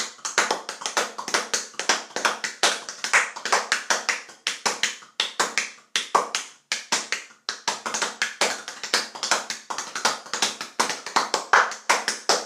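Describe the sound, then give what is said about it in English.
Stomach percussion, a belly tapped by hand in many quick, rhythmic slaps and taps, crisp and steady in an ongoing pattern. “Welcome to another version, another episode of Stomach Percussion.”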